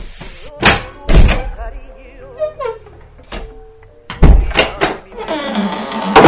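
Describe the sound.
A front door being opened after knocking gives several heavy, hollow thunks and a sharp clatter, spaced irregularly, while people talk in between.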